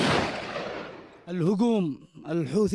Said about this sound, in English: Near Taiz, in southwestern Yemen, they've been firing artillery and mortars at Ansarullah Houthi positions.